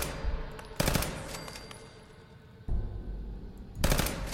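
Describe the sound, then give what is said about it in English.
Pistol gunshots in a video game: a few sharp, crisp bangs with brief ringing tails that stand out over a low, rumbling background ambience. “This pistol has such a crispy shot to it.”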